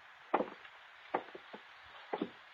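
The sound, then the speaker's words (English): A thick wooden door is opened, heard as three short clusters of faint, dull wooden clunks and knocks spread across the moment, with quiet between them. “And I'll open the door.”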